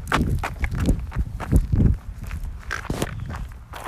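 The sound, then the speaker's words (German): Footsteps of a person walking a dog outdoors: many uneven footfalls in a loose walking rhythm, some heavier and some lighter, continuing throughout. “Charlie, komm. Wir laufen ein bisschen.”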